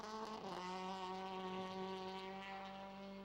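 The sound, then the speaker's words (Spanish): Race car number 15 drones as it enters the track. The engine hum is faint and steady, with a brief pitch wobble near the start. “de Austria, ingresando otro de los vehículos, el auto número 15.”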